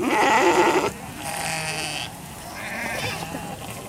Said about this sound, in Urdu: لاکھوں بھیڑیں اور بکریاں قرن افریقہ کی اس چھوٹی سی جمہوریہ میں سفر میں ہیں